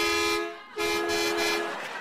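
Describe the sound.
A horn toot sound effect plays as a bright, buzzy tonal blast, cut by a quick dip and then sounding again longer and steady until the end.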